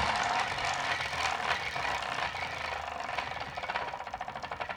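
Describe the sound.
A prize wheel spins with a dense, continuous clattering rattle that gradually breaks into separate, evenly spaced ticks as it slows toward the end.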